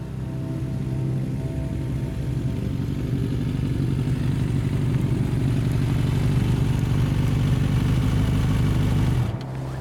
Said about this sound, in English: I ease off the throttle and let the bike coast down the slope